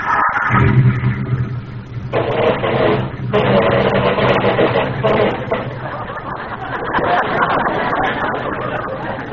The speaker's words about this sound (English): Forgot to turn on the ignition. Oh, here we go.